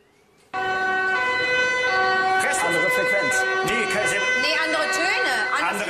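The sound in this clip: A German emergency vehicle's compressed-air siren horn in country mode, Landschaltung, starts abruptly and stays loud. It blares as a rich, steady harmonic tone, and further overlapping wavering tones join midway.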